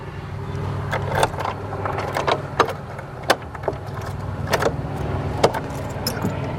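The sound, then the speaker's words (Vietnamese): Keys jangling in a hand, sporadic sharp metallic clinks and rattles over a steady low hum, fairly quiet overall. “Đây, đây là chìa khóa.”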